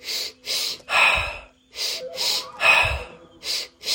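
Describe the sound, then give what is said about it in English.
Breathing exercise of two quick nasal sniffs followed by a long, audible sigh out through the mouth, repeated twice, then two more sniffs to begin another round. “The first breath is into the belly. Second sniff into the chest. And third is a sigh out the mouth. So it sounds like this.”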